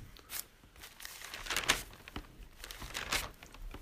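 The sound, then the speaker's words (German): Bible pages turned to a passage in Hebrews make a few faint, papery rustling bursts, with crinkling swishes spaced apart and a soft hiss between them. “Hier sollen wir noch eine Bibelstelle aufschlagen. Hebräer 5.”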